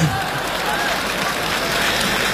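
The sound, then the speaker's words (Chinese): Audience applause from a studio crowd at a Beijing television New Year comedy show, a loud, dense, steady wash of clapping that holds evenly for the whole stretch. “谢谢大家掌声的鼓励”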